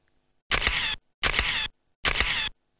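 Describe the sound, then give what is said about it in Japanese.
Camera shutter firing while taking photos for a tourist: three bursts of rapid mechanical clicking, each about half a second long, separated by short silent pauses. “何枚か撮りました。”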